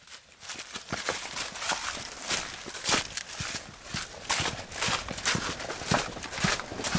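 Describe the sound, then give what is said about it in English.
Footsteps echo down an underground corridor cut into the living stone of a mountain and reinforced with brick and mortar. Many sharp, clicking steps fall in a steady walking rhythm, fairly loud and alone. “I've just walked down a sort of a kind of corridor cut into the living stone of the mountain and reinforced with bricks and mortar.”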